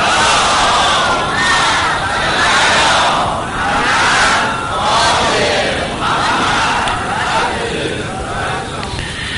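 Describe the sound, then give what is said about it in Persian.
A large crowd at a religious gathering loudly chants salawat in unison. The massed voices swell and ebb in repeated waves, forming a dense, continuous roar throughout. “و اول مظلومه عالم زهرای مرزیه سلام الله علیهما و مظلوم کربلا آقا امام حسین سلام الله علیه و تعجیل در فرج امام زمان صلوات بلند بفرستید.”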